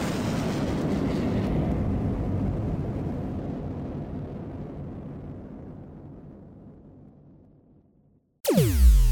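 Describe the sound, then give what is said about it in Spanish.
A spacecraft take-off sound effect begins with a heavy, broad roar that slowly fades over several seconds. After a brief gap, a sudden bright whooshing sweep ends it. “Abróchense los cinturones porque vamos a despegar.”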